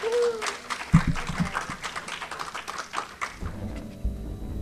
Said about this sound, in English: thank you for another wonderful day. Give yourselves a hand. Yay!